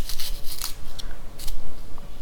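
A knife cuts through a cold watermelon straight from the fridge, giving a few crisp, crunchy slicing strokes in uneven bursts with short gaps between them.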